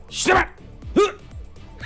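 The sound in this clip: A dog barks in a video being played: a few short, sharp barks spaced apart, with people talking over them.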